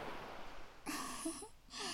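Soft ocean waves wash in quiet, broad swells of hissing noise, with one surge near the middle and another starting toward the end, over a low, steady background.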